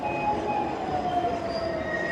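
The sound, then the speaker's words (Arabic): A metro train pulls into a crowded station with a steady, loud rumbling roar and thin, high wheel squeals running through the whole clip. “يلا يا بنات المترو جه”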